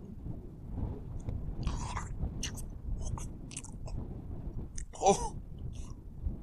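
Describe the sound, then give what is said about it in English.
Biting and chewing of a juicy, spiny pear-like fruit after its needles are cleared off: a steady run of moist, crunchy bites and chews throughout, with one louder crunch near the end. “I'll just clear off these here needles and I'll have a bite.”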